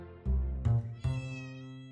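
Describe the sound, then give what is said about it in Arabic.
A cat meows three times in quick succession in a living room, each call rising sharply. The third meow is drawn out and fades slowly, at a fairly soft level with no other sounds. “وكأنه القط موتسارت اللي لازال يعبر عن لا مبالاته ونرجسيته في قلب الصالة في منزل الهادئ”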